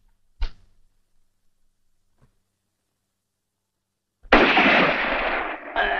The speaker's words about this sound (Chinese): 这一枪是你打的？